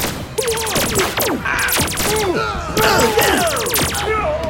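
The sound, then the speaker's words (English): Laser blasters fired by guards unleash a loud, dense volley of overlapping zaps, many quick shots that each sweep downward in pitch, clustered in rapid waves with thuds among them. “The guards let rip with their laser blasters”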